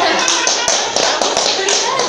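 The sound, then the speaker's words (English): Light, polite golf claps from a team: a sparse run of soft taps over a steady noisy background, lasting about two seconds. “Golf claps from the other team.”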